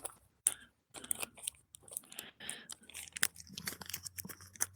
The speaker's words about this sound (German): Ich falte jetzt gerade den Brief zusammen, also den Zettel, den Kassenbon. Mhm. Und wicke ihn jetzt um die normale Rolle hier.